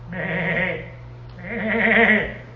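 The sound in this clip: A man's voice imitates a sheep's bleat twice, each a wavering, drawn-out nasal 'baa' with a short gap between, made while standing in a queue at a Home Depot.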